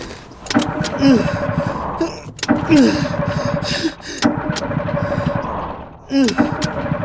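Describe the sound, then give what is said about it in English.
A car engine fails to start, with a few grinding starter bursts separated by pauses. Each attempt carries a brief whining sweep before dying away. “¿Qué está pasando? ¿Crees que haya muerto el motor?”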